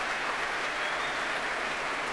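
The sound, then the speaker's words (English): An orchestral concert audience cheers and applauds for the timpanist, a dense, steady roar of clapping at an even level throughout the brief moment. “That cheer is for him.”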